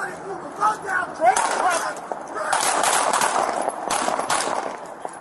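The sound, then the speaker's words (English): Gunshots fired during a tense police confrontation with an armed person: a few sharp, loud cracks burst out amid dense, harsh noise and raised, shouting voices. “Shots fired.”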